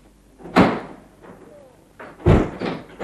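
A door being opened, heard as two solid, thudding bangs about two seconds apart, with quieter rattling and movement between them.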